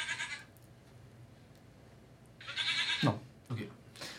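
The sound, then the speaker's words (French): Goat bleating, a few short, nasal, wavering cries clustered near the end after a quieter stretch, fairly faint overall. “Ta gueule la chèvre Supportable cette chèvre là”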